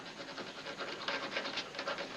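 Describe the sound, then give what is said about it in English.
An eraser rubs out handwriting with many quick back-and-forth scratchy strokes in a steady rhythm, faint and alone, with no talk. “Well, what did you rub out?”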